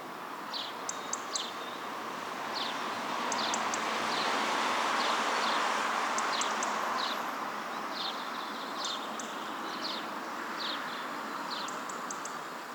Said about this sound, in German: Wir hören Vögel, Wind, aber wir hören keinen Zug.